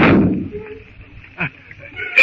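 A gunshot fired during a shootout from a boat: one loud sharp blast with a decaying tail, followed by a couple of shorter, fainter sharp bursts.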